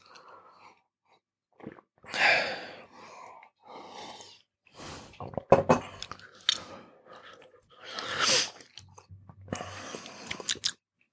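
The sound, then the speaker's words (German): Someone sips tea: several soft slurping and mouth sounds with breathy sighs between them, spread out and fairly faint, without speech. “ich muss noch einen Schluck von diesem Tee trinken, fällt mir da gerade ein.”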